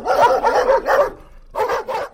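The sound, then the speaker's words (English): Guard dogs bark at a zoo park near the Belgian border with France: several loud, gruff barks in a quick cluster, a short pause, then two more. “These rather leery-looking guard dogs may not be the most exotic animals in the Paradiso Zoo”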